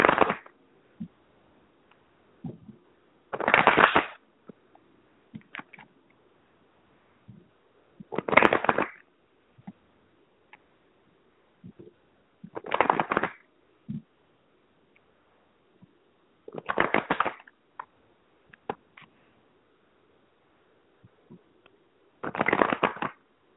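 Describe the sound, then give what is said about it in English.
Shuffling of a deck of psychic oracle cards comes in six brisk riffling bursts, spaced a few seconds apart. Soft, faint handling noises fill the quiet gaps between them. “I think these are called psychic oracle cards. Why am I using these cards? I don't know. Maybe there's something. I just feel like she needs to be read the oracle cards. So that's what we're using.”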